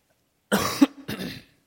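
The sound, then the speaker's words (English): A person coughs twice in quick succession, rough and throaty, from someone getting over a cough before reading aloud. Both bursts are fairly loud and stand alone, with no talking around them. “You'll have to bear with me, I'm getting over a little cough.”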